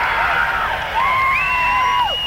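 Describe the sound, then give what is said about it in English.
Concert audience at a 1974 show in San Carlos, California, cheering and shouting, with a steady crowd roar under a sustained, high, whistle-like whoop. “Sounds like 30% of the audience will make some noise, but they won't really skip the audience participation.”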